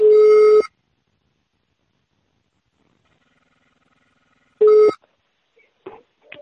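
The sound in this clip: A telephone ringing tone plays during a prank phone call: two buzzy, harmonic bursts of equal pitch, the first longer and the second short, separated by a long silence, with a few faint, brief noises near the end.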